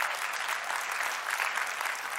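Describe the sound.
A church audience applauds during a sermon, giving sustained, dense clapping from many hands that runs steadily at a fairly soft level without anyone speaking over it.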